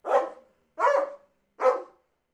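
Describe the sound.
A dog with an injured paw barks three times at an even pace. Each bark is short and moderately loud, with clear silence between them.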